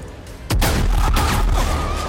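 Gunshots fired at workers in a factory with copper distillation vats: a sudden loud blast breaks the quiet, followed by sustained heavy booming with another sharp shot in the wash.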